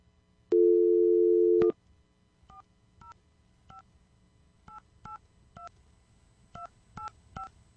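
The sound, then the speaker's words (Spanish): Telephone keypad tones as a number is dialed: a steady dial tone holds for about a second, then nine short, faint two-note beeps follow in small uneven groups. “Oye, es que tengo que marcar...”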